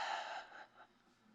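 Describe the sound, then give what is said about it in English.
A faint deep breath during a calming prayer reflection on anxiety: a soft, airy rush of breath that tapers off over about a second, alone without speech. “Deep breath.”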